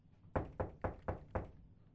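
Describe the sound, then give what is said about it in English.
Knuckles rapping on a car's driver's side window, five firm, evenly spaced knocks with a dull, hollow thud, standing alone against quiet. “When a deputy arrived at the scene and knocked on the driver's side window,”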